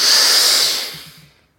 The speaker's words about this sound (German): Ein letztes Mal tief einatmen.